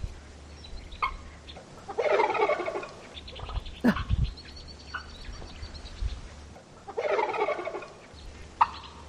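A turkey gobbles in a few rapid, warbling bursts separated by quieter pauses, with no other sounds around it.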